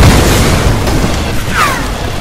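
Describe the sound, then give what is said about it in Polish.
Grenade explosion in a video game, a loud, broad boom with a sustained rumbling tail. “ten mogę dorzucić granatem, czy nie?”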